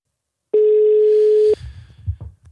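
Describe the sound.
A telephone call's ringing tone: one steady mid-pitched tone lasting about a second, then faint low rumbling noises with no talk.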